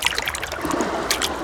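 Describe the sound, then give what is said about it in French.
Water splashes and sloshes as an animal's paw steps into the sea: a steady, moderately loud watery wash with a few brighter splashy bursts, and no voices. “Il met une patte dans l'eau. Puis l'autre.”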